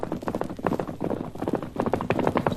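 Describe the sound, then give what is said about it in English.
A ranch foreman's horse approaches at a fast gallop, its hoofbeats falling in a quick, steady, rhythmic patter that stays fairly even throughout. “For the next afternoon, as Tonto waited, instead of the girl, he saw a man approaching at a fast gallop.”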